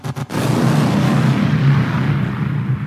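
Thrown golems exploding in a battle against an approaching crowd of monsters: a rapid cluster of sharp blasts at the start, then a loud, low, rolling rumble that holds steady before easing slightly.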